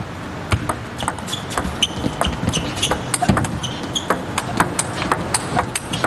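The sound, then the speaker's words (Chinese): A table tennis rally after a spin or no-spin serve in a professional women's match. Many crisp, sharp ball hits and table bounces tick along in an irregular, quickening rhythm over a low murmur of background noise. “这一局王蒙玉又是换成了这种转不转发球，没有以这个勾手为主，这球摆的还是稍微有点冒了。”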